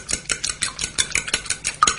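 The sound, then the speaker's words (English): Rapid, rhythmic whisking of an egg in a kitchen bowl, a steady run of many quick scraping, clattering strokes with no voices. “Yeah, whisking in the kitchen. Well done. We've got a picture. Whisking an egg, but it could have been cream, couldn't it? So that was whisking in the kitchen.”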